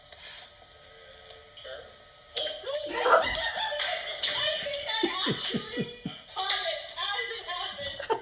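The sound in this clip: A person getting hit lands as a sharp smack, followed by bursts of shrill, repeated cackling laughter, with voices talking throughout.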